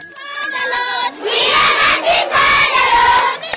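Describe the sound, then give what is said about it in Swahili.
Children at a temporary refugee camp in Nyumanzi, northern Uganda, shout and cheer to welcome the UN refugee chief. Loud, sustained crowd shouting follows high, whistle-like calls. “Akiwa ameongozwa na viongozi kadhaa wa umoja huo, analakiwa kwa bashasha na watoto.”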